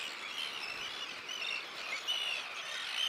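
Seabirds calling at a large nesting colony of 435 breeding pairs on an old pontoon on the German North Sea coast. A dense, continuous chatter of high, overlapping cries and chirps, with no voices.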